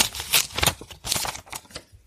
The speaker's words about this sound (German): Ich krame mal weiter hier.